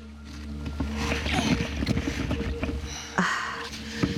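A boat being lowered into the water, heard as continuous splashing and sloshing with a steady watery rush and a brief louder surge past the midpoint.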